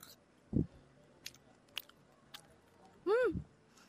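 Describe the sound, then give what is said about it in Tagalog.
Someone eats grilled tuna with mango salsa and rice. A few soft, quiet bites and crunches are followed by a brief murmured vocal sound of tasting. “I'm not sure kung anong lasa ng grilled tuna with mango salsa, pero let us try kung masarap ba ang tuna with mango and rice. So, eto, guys, tikman natin.”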